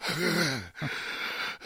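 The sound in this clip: Heavy breathing from climbing steps with the elevator out: a long voiced, groan-like gasp, then a shorter breath, then breathy panting air.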